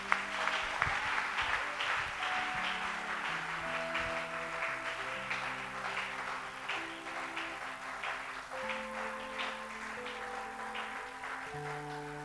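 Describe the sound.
A church audience applauds, with sustained crackling clapping throughout and steady music tones playing beneath.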